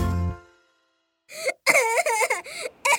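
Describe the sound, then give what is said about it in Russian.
A boy cries after a fall. Short, wavering sobbing bursts break in after a brief silence, each one a strained, high vocal wail separated by small catches of breath. “Мальчик, не плачь, ты упал? Нет. Не плачь, хочешь мороженого?”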